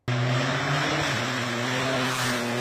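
A rally car engine roars at full throttle on a dirt forest stage in Arcadia, a loud, steady, droning note that holds throughout with one brief dip in pitch partway through.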